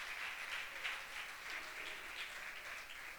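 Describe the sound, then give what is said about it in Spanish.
Faint applause from a church audience during a service: soft, continuous clapping with gentle swells in intensity and no voices over it. “Denle un aplauso nomás.”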